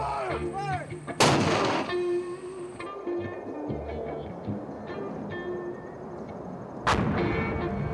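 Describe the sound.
Artillery firing during a military deployment: two heavy, loud blasts, one early and one near the end, each followed by a rumbling, ringing decay, with lower rumble between them.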